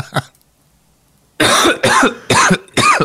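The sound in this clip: A coughing fit with choking: one brief cough, then a pause, then a run of loud, harsh, rasping coughs in quick succession, with no talk.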